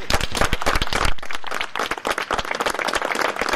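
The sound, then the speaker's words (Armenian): Judges and lawyers applaud outside the Vardashen penitentiary, greeting a released judge. A dense, busy patter of many hands clapping runs loud and continuous throughout, thinning slightly in the middle before picking up again. “Վարդաշեն քրեակատարողական հիմնարկի մոտ նրան ծափերով դիմավորեցին մի խումբ դատավորներ ու փաստաբաններ։”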